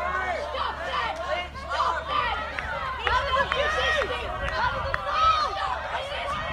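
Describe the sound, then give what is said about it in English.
Police remove a crowd of Aboriginal people, elders and supporters from a protest camp. Many voices overlap in busy, continuous chatter and calls over a steady low hum. “That is the sound of Jabberong people, elders and supporters being removed from the camp on Tuesday morning.”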